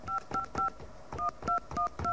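Touch-tone telephone dialing: a wrong number is keyed in as seven short electronic beeps, a quick group of three, a brief pause, then four more at a steady pace. The tones are faint and clean, with no voices.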